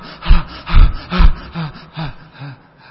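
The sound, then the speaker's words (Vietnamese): A voice imitates the laboured, uneven gasping breath of a dying person: a series of harsh, throaty in-and-out gasps at irregular intervals, the early ones loudest and the later ones weaker, with no words. “thấy những người sắp chết họ thở dốc như thế chưa? Thấy chưa? Họ thở vào hít ra không đều hòa”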